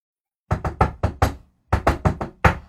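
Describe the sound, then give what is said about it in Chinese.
Rapid, urgent knocking on a door: two hurried bursts of five loud, hollow knocks each, separated by a short pause, with no voices. “一阵急促的敲门声传来”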